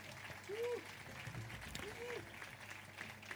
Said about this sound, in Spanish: Un aplauso, por favor.